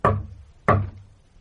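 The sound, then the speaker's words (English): Two heavy bangs hit a communicating door, each a loud, low thud with a short decay, spaced about two-thirds of a second apart. “Just a minute. I'll bang on the communicating door.”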